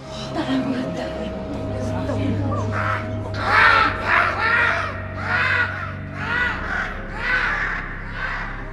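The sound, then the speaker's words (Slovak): A raven caws as it flies off, giving a run of harsh, rasping calls that come in quick pulses, loud and ragged, over a low steady hum. “Havran kráľ odlieta!”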